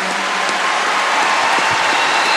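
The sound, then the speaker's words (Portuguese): Dense, loud applause from an audience at a Catholic church gathering, a steady hiss of many hands clapping that is sustained throughout with no pauses. “Quero que você dê uma salva de palmas.”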